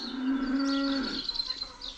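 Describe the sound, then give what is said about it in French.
A single drawn-out moo from a cow of a new cattle breed grazing in a pasture near the Château de Germolles in Burgundy; the low, steady bellow is fairly faint and fades into quiet outdoor ambience. “Je laisse maintenant les vaches sur ma gauche”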